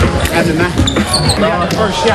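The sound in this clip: Basketball dribbling during a pickup game with Barack Obama, quick repeated bounces under people talking.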